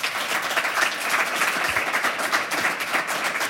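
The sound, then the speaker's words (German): Audience applause for a guest at a live interview event, as a steady, dense wash of clapping that holds at an even level throughout. “Auch nochmal einen kleinen Applaus für Hugo.”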